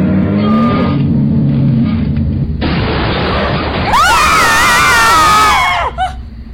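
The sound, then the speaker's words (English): A car's side mirror is torn off: a sudden loud crunching burst, then a shrill, wavering screech that rises and falls before cutting off. “It just tore off the side mirror.”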